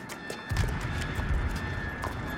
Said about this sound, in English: Lily stops on one side of a street and watches a white horse pulling an empty carriage along the road.